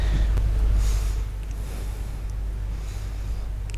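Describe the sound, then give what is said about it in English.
Deep, slow breaths taken during a guided breathing practice: soft, airy inhales and exhales over a steady low rumble, with no talking. “I'm going to invite you to clear out your inner space with four breaths, and invite you to close your eyes.”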